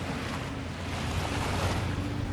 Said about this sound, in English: that sound you hear are the cold, cold waves crashing in the cold water out here